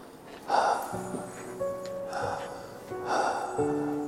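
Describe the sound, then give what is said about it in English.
Deep breaths drawn in through an open mouth: a few soft, airy rushes of breath, faint and spaced apart, over a quiet background. “Deep breath with an open mouth.”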